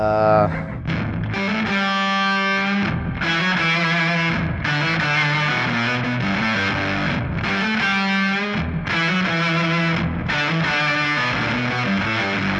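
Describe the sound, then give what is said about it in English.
Electric guitar through an octave fuzz effect gives a nasal, buzzing distortion with an added octave, playing sustained melodic phrases broken by a few short gaps. “It has nasally fuzz on it, and that's where you're getting with the octave. Yeah, I'm going from octafuzz, this guy and this guy.”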